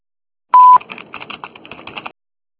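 A voicemail recording tone: one short, loud, steady beep on a telephone line, followed by a run of faint, rapid clicking and tapping.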